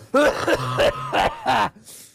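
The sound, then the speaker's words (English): A person imitates a smoker's cough with a quick string of rough, throaty coughs, several bursts in a row followed by a faint breath at the end. “There's a lot of smoke in here. A smoker's cough.”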